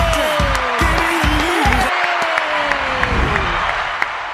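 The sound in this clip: Applause and cheering rise from a crowd as a guest is welcomed: dense, steady clapping fills the whole stretch, with whoops and a few raised voices riding over it.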